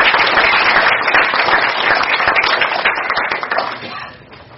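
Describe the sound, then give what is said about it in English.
An audience applauds honored students with dense, loud, sustained clapping that thins and fades toward the end. “It's going to take a while. So can we give them a round of a hand?”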